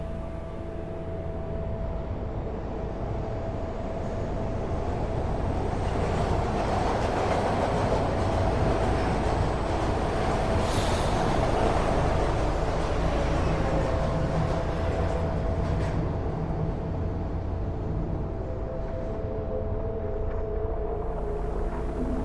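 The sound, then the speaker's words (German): A subway train pulls into a station with a sustained, loud, broad rumble and a steady rattling roll that swells slightly early on and holds to the end. No voices are heard. “Die U-Bahn fährt ein.”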